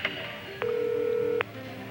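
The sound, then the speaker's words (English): Telephone keypad tones as a number is dialed: a brief beep, then one long, steady electronic tone lasting nearly a second. “I dialed my own number.”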